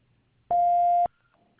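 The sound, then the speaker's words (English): One voicemail beep: a clean, steady electronic tone of about half a second, loud and alone against near-silence. “Please leave a message after the tone.”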